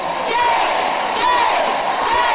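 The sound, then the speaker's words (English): Activists packing the Texas Capitol loudly chant "shame" after the Senate passes an abortion bill. Their voices rise in repeated, rhythmic group shouts over dense crowd noise. “A Capitol packed with activists cried shame after the Senate passed the bill.”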